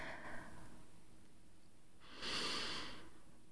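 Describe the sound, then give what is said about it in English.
A deep breath in and a slow exhale, both faint and heard alone: a short airy intake, then a fuller, longer rush of breath later on. “So close your eyes, take a deep breath in and exhale slowly.”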